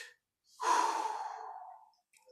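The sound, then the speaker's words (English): A long, deep breath taken while recording. One sustained, airy breath swells quickly, then slowly tapers off over about a second and a half, heard alone. “when I record, I will take very long, deep breaths, you know, like,”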